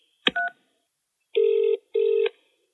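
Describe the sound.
Telephone keypad tones sound on an automated phone menu line: a brief double blip, then after a pause two steady, equal-pitched beeps in quick succession.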